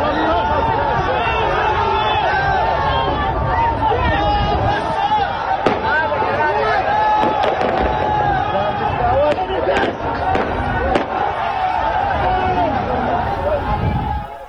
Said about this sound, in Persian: زاهدان حمله به کلانتری تیراندازی مستقیم